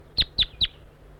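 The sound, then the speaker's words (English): A wild bird gives three short, high chirps in quick, even succession, each sharp and clear, followed by a brief quiet moment. “Calling to the wild bird.”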